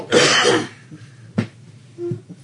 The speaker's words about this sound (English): Don't breathe in while you're taking a drink.